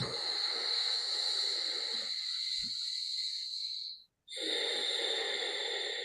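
Slow breathing with a soft sound in the throat during a calming breathing exercise: a long, faint, hissing breath that breaks off in a brief pause before another breath begins.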